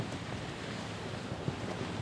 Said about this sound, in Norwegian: Og virkelig fikk vi bra drag i seilet her